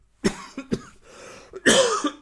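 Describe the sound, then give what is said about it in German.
A coughing fit from one person: a few harsh, separate hacking coughs with short pauses, then a stronger, louder burst of coughing near the end. “Gleich mal schön Hustenanfall deswegen.”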